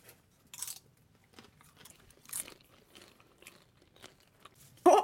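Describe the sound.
Someone tastes a cheesy chili dish, chewing with faint, scattered bites and soft crunches. A single loud crunch lands at the very end, and no one talks.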